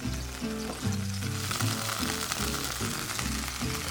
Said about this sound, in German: Das heißt, die Schwammerl, die Zwiebel, alles was drinnen ist, wird kurz ein bisschen braun angebraten.